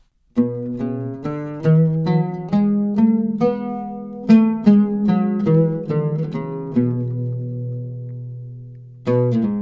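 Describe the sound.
An oud plays the Rust maqam scale as a run of single plucked notes. Each is bright and ringing and decays quickly. A steady series of notes sounds at a moderate level, then a longer pause and one final pluck.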